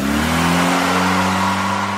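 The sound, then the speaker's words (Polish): A car pulls away with squealing tyres, heard mainly as a loud, steady engine drone with a strong low hum, continuing evenly without voices. “Klepnął przyjaźnie w błyszczący dach samochodu, który ruszył z piskiem na południe,”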